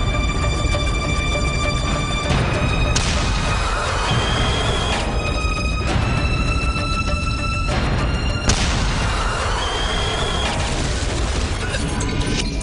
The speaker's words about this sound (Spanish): Bosse se cruza en el camino de un T-34. Dispara y el proyectil rebota en el tanque soviético.